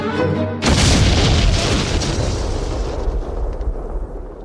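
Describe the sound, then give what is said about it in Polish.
A radio-drama explosion effect bursts in abruptly with a loud, deep boom, then rolls on as a broad, rumbling roar that slowly fades away. “Milczeli, aż tu nagle usłyszeli tupanie po dachu. Po tupaniu nastąpił wybuch.”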